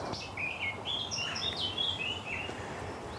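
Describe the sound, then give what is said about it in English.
Sparrows chirping in a hedgerow near farm barns in the Brecon Beacons: a string of short, high, bright chirps, faint against a steady background hiss. “And there's also sparrows here.”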